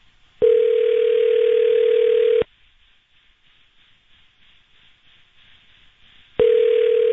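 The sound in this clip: An outgoing telephone call rings out with a steady electronic ringback tone. One tone lasts about two seconds, a roughly four-second silence follows, and then the tone sounds again.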